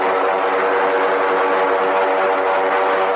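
Blimp engines droning during landing, a loud, continuous propeller hum with a steady tone and no breaks. No voices are heard.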